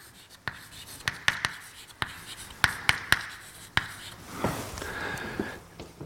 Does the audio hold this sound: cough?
no